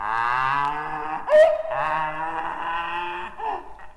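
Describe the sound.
A human voice imitates a donkey's bray: a loud, sustained, wavering harmonic call with a sharp catch partway through, then continues drawn out alone until it tails off.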